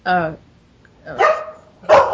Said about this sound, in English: There's your dog. He's been quiet for a long time.